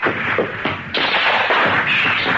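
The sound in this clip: Rockets fired at a teapot as a radio comedy effect: a loud, continuous rushing roar with heavy thuds and swooping whooshes through the whole clip.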